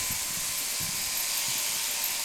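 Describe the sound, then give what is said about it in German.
An electric sheep-shearing machine buzzes steadily as shearers remove wool from sheep on a shearing bench in late summer. The whine stays constant, with soft low thumps underneath. “Unter einem Sonnensegel wuchten drei Schafscherer im Akkord Schafe auf die Scherbank und entfernen mit der Maschine die Wolle.”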